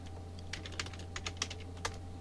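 Typing on a computer keyboard: a quick, irregular run of many crisp key clicks over a steady low hum, with no voices.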